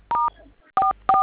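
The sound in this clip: Telephone keypad tones as a number is dialled: three short, steady electronic beeps, each a clean dual-pitched tone, separated by brief pauses.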